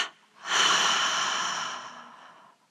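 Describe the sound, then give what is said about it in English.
Breathing through the mouth during a guided meditation exercise: a single long, airy breath that swells quickly after a brief soft start, then fades gradually into quiet. “and double exhale through the mouth. Double inhale. Tense and hold. Double exhale.”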